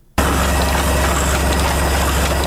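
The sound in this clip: Printing press machine running while printing pages for a small book: a loud, steady mechanical drone with a low hum underneath, starting abruptly after a brief quiet moment and continuing without pause.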